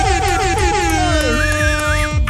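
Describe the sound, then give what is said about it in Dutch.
A loud air horn sound effect blares to celebrate a football club winning the championship, with steady brassy tones and sliding pitch sweeps over a continuous dense backing that never drops away. “mag ik alsjeblieft een hele harde toeter, een Q-Music toeter, voor PSV, want ze zijn kampioen!”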